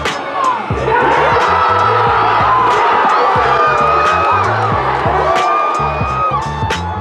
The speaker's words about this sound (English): That's the sound of fans watching at Mad Oak near Lake Merritt.